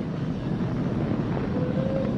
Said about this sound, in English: Flying crew on board Dragon and Falcon 9, and look at them go! Falcon power telemetry nominal.